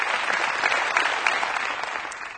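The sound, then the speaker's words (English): Audience clapping during a church sermon, a brisk, steady patter of many hands, moderately loud and even from start to finish. “Come on. You can clap.”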